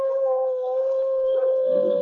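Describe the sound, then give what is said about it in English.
A gray wolf gives an eerie howl of victory, a single loud, steady, sustained tone that holds an even pitch throughout with only slight wavering. “the gray wolf stood over his vanquished foe and gave vent to an eerie howl of victory”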